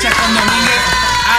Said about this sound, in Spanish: ¡Merece un aplauso!